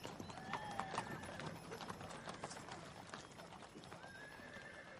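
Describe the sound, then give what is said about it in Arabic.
Horses of an army galloping, with dense, rapid clip-clop hoofbeats throughout and a couple of high, drawn-out whinnies rising above them, loud and continuous. “ألا ترى خيل جيش يحيى بن الحسين راكضة نحونا؟”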